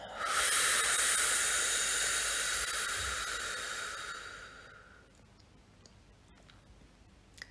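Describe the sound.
A long, airy breath during a guided meditation: a loud, breathy hiss swells at once, holds, then slowly fades away over several seconds into near silence.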